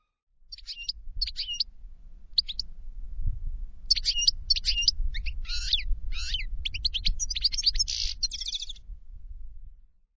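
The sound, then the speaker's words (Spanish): A goldfinch sings bright, high twittering phrases. Sparse short chirps give way to a faster, busier run of jumbled trills over a low, steady rumble. “Y el tercero es el jilguero.”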